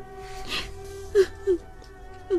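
A woman sobs quietly while tied up at night in a tomb house: a faint, breathy whimper, then three short, soft, tonal sob catches spaced out over about two seconds.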